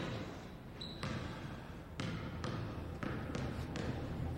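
A basketball bounces on an outdoor court as someone shoots hoops: six solid thumps, one near the start and then a quicker run of five, with quiet gaps between them.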